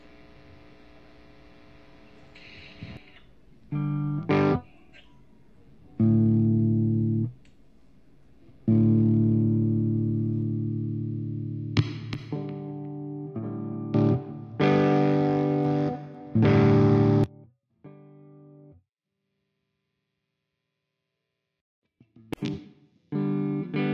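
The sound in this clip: Distorted, effects-processed audio with buzzy, harmonic-rich tones in several loud bursts separated by short gaps, then near silence before a few brief bursts at the end.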